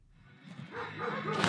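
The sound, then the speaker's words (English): A dog yelps and barks at an outdoor dock diving competition in Palmer, Alaska. The sound is a brief, rising, noisy burst that ends in a louder, strained bark. “Dogs and their owners gathered in Palmer last weekend for a dock diving competition.”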